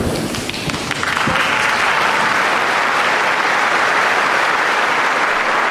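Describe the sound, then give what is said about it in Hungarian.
A full audience in the sixth Pál hall breaks into applause. After a brief uneven opening, the clapping swells at about one second into a dense, loud, sustained wall of many hands that holds steady to the end. “Ebből a tapsból a kedves hallgatók rájöhettek, hogy bizony nagyon sokan vannak jelen a hatodik pálteremben. Szinte azt mondhatnám, hogy teljesen megtelt,”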